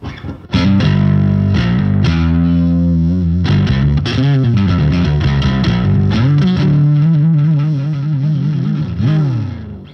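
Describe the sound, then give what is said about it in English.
A custom Bill Nash jazz bass guitar with a thin neck plays through a pair of Orange AD200 heads, giving a loud, gritty, distorted tone with chorus-like shimmer, sustained low notes, quick runs and sliding bends. “Bill Nash bass made for myself. So it's a really thin neck, custom neck. And it's one of the three jazz basses I've got. Well, it sounds terrific. Can you give us a taste of the sound?”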